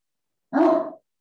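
A Great Dane gives a single deep, full bark that lasts about half a second and is heard alone.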